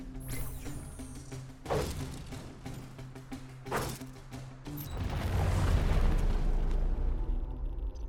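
Video game combat as a cannon mech punches an enemy scorpion into a mountainside: heavy booming impacts and thuds land at intervals over a steady mechanical drone, ending in a long, loud rumbling crash.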